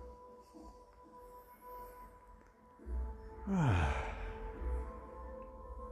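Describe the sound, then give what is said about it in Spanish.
A deep breath drawn in during a 6 a.m. group meditation, a faint, slow, breathy swell heard over a soft, steady drone. “Inhala bien profundo.”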